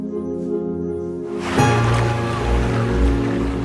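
Water splashes and sloshes as someone swims on her back in a pool. A soft wash of water swells partway through and keeps surging over sustained tones.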